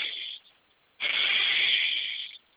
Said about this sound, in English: So you inhale forcefully, exhale forcefully, pause on the out breath, and you're going to do this 5 times. So 5 powerful breaths.